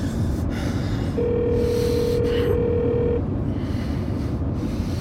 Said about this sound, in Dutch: Kom op, Lea. Kom op opnemen.